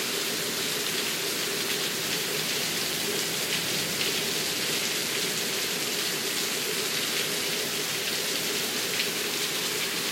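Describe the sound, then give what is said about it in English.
Steady rain falls in an even, continuous hiss that holds at the same level throughout, with no gaps and no voices. “Let the rain wash you. Let the rain bless you.”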